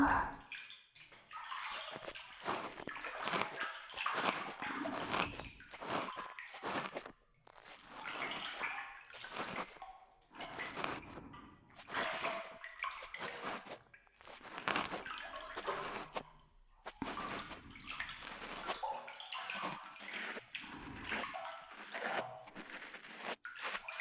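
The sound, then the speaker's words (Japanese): A cotton swab cleaning softened earwax inside an ear makes a continuous close, scratchy, crackling rustle, with a wet texture and brief irregular pauses. “綿棒でふやけた耳垢をきれいにしていきますよ。”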